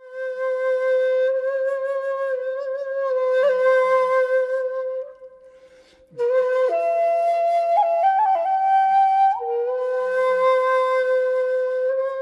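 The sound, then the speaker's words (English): A flute made from the dead stalk of an 80-year-old agave plant that bloomed and died in Ann Arbor plays a slow melody of long, breathy sustained notes, with a brief pause midway and a few stepped pitch changes. “That's the sound of a very special flute.”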